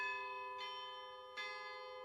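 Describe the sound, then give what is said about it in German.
Church bells ring in a town, with two distinct strikes over a steady, sustained metallic hum. The sound is faint and there are no voices. “Das ewige Läuten in dieser Stadt hat den Brenner schon richtig ein bisschen aggressiv gemacht.”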